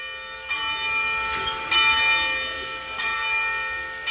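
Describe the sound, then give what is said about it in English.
A church bell in Gunawagi rings in a few spaced strokes, each one leaving a long, bright, humming tone that overlaps the next and carries on without talk. “This is the sound of the St. Kateri Church Bell in Gunawagi.”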